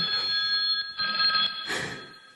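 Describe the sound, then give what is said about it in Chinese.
A telephone rings with a bright, electronic, multi-tone ring, sounding steadily for about two seconds before fading slightly at the end. “电话来了。”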